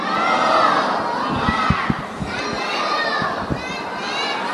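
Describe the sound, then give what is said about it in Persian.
A large crowd seated in a mosque hall recites salawat together, a loud, sustained wash of many voices chanting in unison, with a few sharper shouts and thumps rising briefly above it. “این جمعیت تو شبستان نشسته، صدای صلوات مال چند نفره؟ بشنویم صدای این جمعیت روی صلوات”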